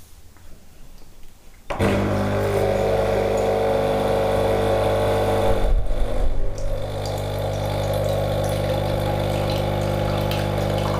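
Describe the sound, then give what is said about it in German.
A coffee machine starting and running: after a quiet moment it kicks in with a sudden loud, steady motor-and-pump hum that carries on without a break. “Wir werden den Kaffee starten. Ne?”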